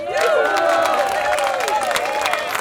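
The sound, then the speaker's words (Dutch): Crowd applause and cheering at the festive unveiling of the Kabouterbrug bridge, a steady wash of clapping with raised voices carrying over it for the whole clip. “ik wil toch nog een keer een applaus voor Erik”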